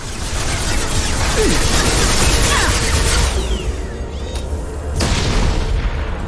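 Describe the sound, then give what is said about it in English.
A high-impact shot in a game explodes with a loud boom, a dense, roaring blast with heavy low rumble that fills the whole stretch without pause. “Firing a high impact shot! It's gonna blow!”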